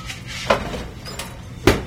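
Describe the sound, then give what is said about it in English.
Pizza topped with turkey, gravy in place of tomato sauce, salt and pepper slides into an oven with two sharp metallic clatters, the second loudest, between quieter scraping noises. “Then we go in the oven. So it's going in now.”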